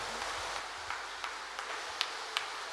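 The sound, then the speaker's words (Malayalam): An audience claps its hands in thanks: faint, evenly spaced claps in a steady rhythm over a soft, hissing wash of many hands. “നന്നായിട്ട് കയ്യടിച്ച് കർത്താവേ നന്ദി, യേശുവേ നന്ദി.”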